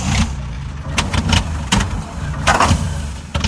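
An engine that won't start makes a few rough, sputtering bursts of cranking that never settle into a steady idle.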